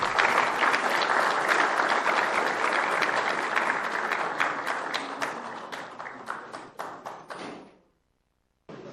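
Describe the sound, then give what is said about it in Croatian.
An audience applauds at a city awards ceremony for culture. The clapping is dense and loud at first, thins gradually into scattered separate claps, then stops, leaving near silence before a faint sound returns at the very end. “Zamolit ću vas za još jedan aplauz”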